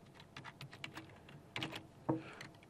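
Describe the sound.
Computer keyboard typing as code is entered, a for loop that uses a pointer, heard as an irregular run of many light key taps with a few louder strokes, alone without talk.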